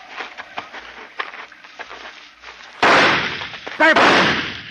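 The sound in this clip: A gunshot bursts out abruptly during a search through tall grass, following a stretch of soft rustling and faint taps; the loud blast decays into a long roar, and a second sharp, bright burst comes close behind.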